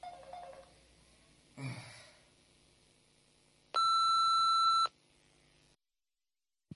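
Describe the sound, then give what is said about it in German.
An answering machine is switched on and gives a single long electronic beep, a steady, loud tone lasting about a second. Faint noises come before it, and silence follows. “Können wir bitte den Anrufbeantworter anmachen?”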